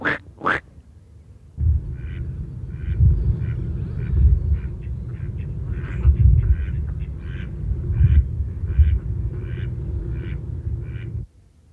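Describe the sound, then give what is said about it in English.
A male mallard quacks quietly: a long series of short, soft, rasping nasal calls at a fairly even pace, heard alone over a steady low rumble. “mallards are the only ones that really go quack, and those domestic ones which are bred from mallards. And even then, there are differences between the sexes. Here's the male with his rather quiet sort of”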